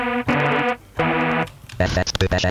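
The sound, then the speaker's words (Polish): A distortion effect switches on in a multi-effects unit: two sustained, evenly pitched harmonic tones are followed by choppy, buzzy, gritty bursts of distorted sound. “Potem mamy taki multi-efekt. To można sobie włączyć. A, tu jest jakiś, tam się włączył pewnie jakiś przester czy coś.”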